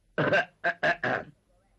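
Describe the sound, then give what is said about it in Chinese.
A storyteller's male voice imitates a man coughing, producing a few short, throaty bursts in quick succession, somewhat like clearing the throat, alone and fairly quiet. “张作霖听完这话之后，把眼前的酒杯一推，咳嗽了两声”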